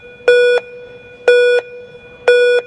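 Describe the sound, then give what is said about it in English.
Three loud electronic beeps from a ski race start gate during the final five seconds of the countdown. Each is a short, steady, high tone, evenly spaced about a second apart, with silence between. “You have the 10-second beep. You have to wait till the 5-second, which is what we just heard, the beep. So it's the last 5 seconds.”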